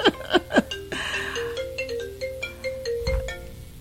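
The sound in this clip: A telephone ringtone sounds again, a loud electronic melody of clear, steady tones that step between pitches, preceded by a few short, sharp chirps and heard alone.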